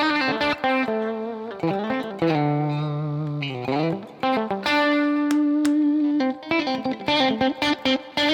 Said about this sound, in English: See how it becomes a bit thinner on that middle position pickup?